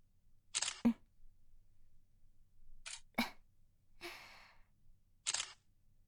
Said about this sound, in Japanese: 念のため、裸の写真は撮らせてもらうわね。